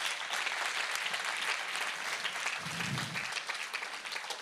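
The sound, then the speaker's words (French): A church audience applauding together during a French-language service: a steady, fairly faint wash of clapping that holds evenly for the whole stretch without clear cheering. “Est-ce qu'on peut acclamer le Seigneur ensemble?”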